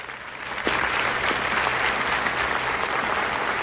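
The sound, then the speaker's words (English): An audience standing to applaud as a woman walks up to a stage and waits at a podium: dense, steady clapping that swells slightly after the start and continues evenly throughout. “Everyone stands to applaud as she makes her way up to the stage and waits in front of the podium.”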